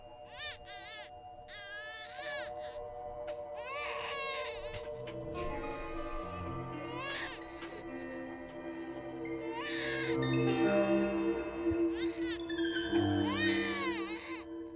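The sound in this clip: A baby cries shrilly in the night, with many piercing, wavering wails in repeated bursts that grow louder toward the end.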